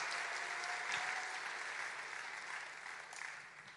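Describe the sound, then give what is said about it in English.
Audience applause for a group called up at a gathering, a soft, steady wash of many hands clapping that tapers slightly toward the end. “Let's give them a massive round of applause.”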